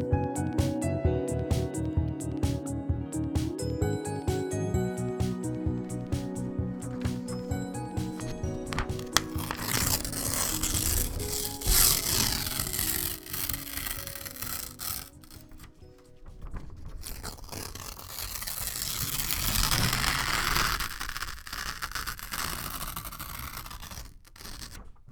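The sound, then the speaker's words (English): Paper is ripped up into tiny pieces: a long run of rough tearing, crunching and crinkling noise, fairly quiet overall, with no voices. “That is the sound of me ripping up your limiting beliefs.”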